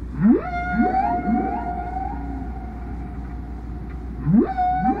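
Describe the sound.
Whale song: a few quick rising swoops followed by a long, steady tonal moan, with the same rising calls returning at the end in a repeating pattern over a low rumble.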